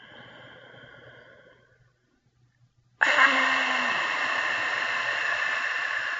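People breathe during a guided breathing exercise: a soft, airy breath, a brief silence, then a loud, sustained rush of breath that lasts to the end.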